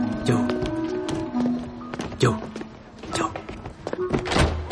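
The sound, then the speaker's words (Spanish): Footsteps climb the entrance stairs of a boarding house, a few dull thuds set against sustained music. “Sube la escalera de acceso al portal de la pensión.”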